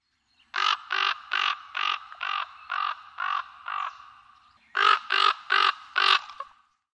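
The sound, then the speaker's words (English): A raven gives hoarse, throaty croaks, a run of eight evenly spaced calls, a short pause, then four more delivered slightly faster, each call loud and clear against silence. “Raven.”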